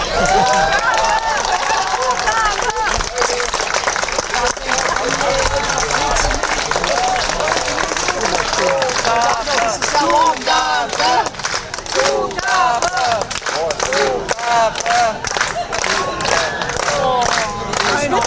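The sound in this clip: An audience applauds and cheers for an encore after a band's performance: dense, continuous clapping with whoops and shouting voices, holding steady and loud from start to finish.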